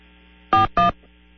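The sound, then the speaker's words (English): Two short electronic beeps from a phone system on a call line, close together and equal in length, over a low steady hum. “I heard a beep. Yeah, it was just that's just the phone system coming in.”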